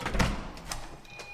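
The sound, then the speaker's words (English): A heavy-duty fire-rated door on a tower estate in Camden swings open with a few dull thuds and latch clicks in a short, fairly loud burst. “It's a pretty heavy-duty door”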